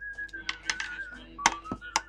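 Someone whistles from behind in a thin, sustained, slightly wavering tone that drops a little lower for a second phrase, with sharp clicking taps scattered throughout.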